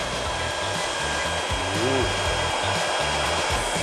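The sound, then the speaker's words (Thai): A hair dryer blows steadily while hair is being curled, a powerful model of about 1,800 watts. Its airflow makes an even, continuous whooshing roar that holds the same loudness throughout, with no voices. “แต่การใช้ในลักษณะนี้อยากจะแนะนำให้เป็นไดเป่าผมที่มีจำนวนแรงวัตต์ที่แรงนิดนึงนะครับ”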